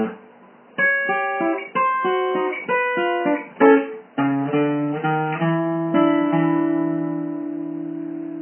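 Guitar playing a turnaround that ends on a C7 shape at the 5th fret: a quick series of plucked notes and short chords, then a final chord left ringing and slowly fading.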